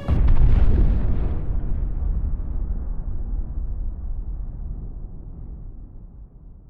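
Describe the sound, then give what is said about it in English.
A huge bomb strike explosion hits a future city: one deep, loud blast at the start, then a long, low, rumbling decay that fades slowly over several seconds, with no voices. “Battery area, bomb strikes you in 5 seconds. 4 seconds. Bomb strikes you in 3 seconds. 2 seconds. 1 second.”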